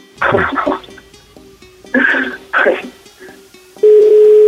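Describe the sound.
Ringing tone of an unanswered phone call, heard as short repeated beeps under people talking, then one loud, steady tone that holds to the end.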